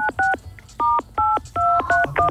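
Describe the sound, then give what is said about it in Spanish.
Telephone keypad tones ring out as a number is dialed: a quick series of short, clean electronic beeps at slightly different pitches, played in an irregular rhythm with brief gaps, and no talk. “Otra vez está marcando, señor.”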